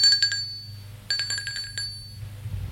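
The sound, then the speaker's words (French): A doorbell ringing at a home: two bursts of bright, rapid metallic ringing with a short pause between them over a low steady hum. “Un jour, on sonne chez elle.”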